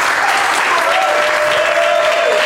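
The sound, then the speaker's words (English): A round of applause from an audience: loud, continuous, dense clapping that holds at an even level from start to finish. “A round of applause for Bobby as well.”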